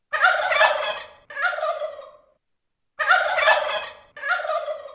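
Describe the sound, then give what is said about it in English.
A turkey gobbles in four loud, rattling bursts that fall into two pairs, each a longer gobble followed by a shorter one, with a clear pause between the pairs and no other sound. “The sound you just heard was a recording of a turkey.”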